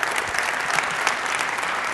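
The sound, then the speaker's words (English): Audience applause at a community charity gathering after news of Thanksgiving dinner baskets for families in need, a dense, even clatter of many hands clapping throughout, with no talk. “You can clap.”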